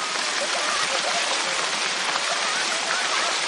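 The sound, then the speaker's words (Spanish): Rain falling on a city street, a dense, steady hiss of drops that stays even and unbroken throughout. “el padre Gabriel camina descalzo bajo la lluvia por una calle de la ciudad”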